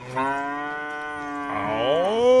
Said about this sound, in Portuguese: Boi, agora mandou fotografia, vídeo aqui de boi, ó. Ô, rapaz, boiada bonita. Nelore, hein? Aqui é tudo Nelore, aqueles bois.